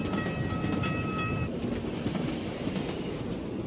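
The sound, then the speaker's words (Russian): A train rolls toward a station at dawn with a loud, steady rumble of wheels on rails. Sustained high tones ring over the noise during the first half, then fade while the heavy rolling continues. “К Калинину подъехал состав на рассвете, но от вокзала остановился далеко.”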